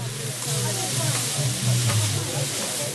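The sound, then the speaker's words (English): Yakitori skewers of mackerel, scallops and chicken sizzle over a grill fire at a barbecue at the Japanese ambassador's home in Washington, a steady broad hiss that runs throughout beneath a speaking voice. “At a recent barbecue at the Japanese ambassador's home here in Washington, chefs grilled skewers of mackerel, scallops, and bite-sized pieces of chicken that glistened as they caramelized over the fire.”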